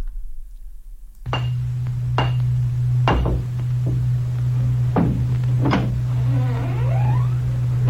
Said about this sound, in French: Frappe ce roc avec ton pied. Hein? Et toi, avec ta tête? Ben bon, prends une pierre et frappe.